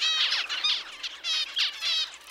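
A parent finch gives heat calls: a run of short, high, buzzy harmonic notes in repeated bursts, each with a slightly broken rhythm, fairly loud and clear against a quiet background.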